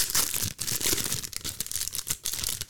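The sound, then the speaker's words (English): Crinkling, tearing rustle of a baseball card pack being ripped open, a continuous papery crackle with quick bursts and brief pauses over a few seconds, no voices. “Let's go ahead and open up this pack.”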